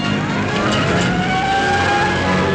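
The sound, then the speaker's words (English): Cars closing in produce a loud, continuous engine roar with droning, revving tones that hold steady throughout, with no voices over it. “All vehicles, close in. Let's go.”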